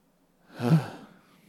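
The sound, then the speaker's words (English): A single breathy exhale blown straight into a microphone, swelling over about half a second and then trailing off, heard alone with no talk. “Did you just breathe into the microphone?”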